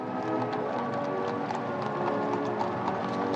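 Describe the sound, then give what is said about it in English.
Horses' hooves clip-clop in a steady, rhythmic stream as a gilded carriage travels to Buckingham Palace in London during a state visit, over a dense, continuous background wash. “Amid all the trappings of a state visit, including a ride to Buckingham Palace in a gilded carriage”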